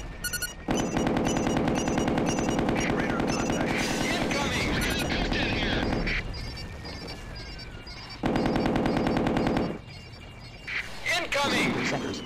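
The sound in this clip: Rapid machine-gun fire and helicopter noise from a combat video game, heard as two long, dense, loud bursts of fire separated by a short lull, with a brief gap and further shots near the end.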